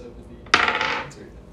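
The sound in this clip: Poker chips tossed into the pot for an ante during a card game make one short, bright clattering burst of plastic clicks that rattles briefly and then settles into quiet.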